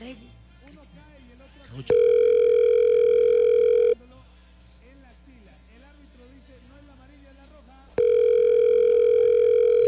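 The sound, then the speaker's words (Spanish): A phone line rings with no answer, giving two long, steady ringback tones separated by a gap while people talk quietly throughout. “Volvemos a llamar o llamamos no a otro. No contestó, llamemos a otro y no contesta.”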